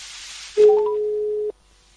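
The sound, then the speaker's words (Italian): A telephone line tone sounds while a call is being placed to a caller. A single steady mid-pitched tone holds for about a second and then cuts off abruptly, after a brief hiss of line noise. “La signora Anna, che sto già provvedendo a chiamare”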